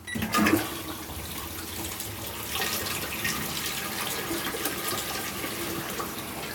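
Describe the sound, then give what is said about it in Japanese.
Rushing water from a toilet being flushed: a loud surge at the start settles into a steady, broad rush that continues to the end, with no talking. “じゃあ流します。”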